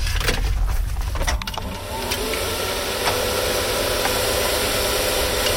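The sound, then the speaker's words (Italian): A carrot-field weeding robot is switched on after its batteries are connected and a key and ignition button are used. A few clicks and rattles come first, then a steady electric whir that holds to the end. “collega le batterie, gira la chiave e schiaccia il bottone d'accensione.”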